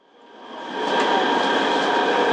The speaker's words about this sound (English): 生命科学园站到了。 We are arriving at Life Science Park Station.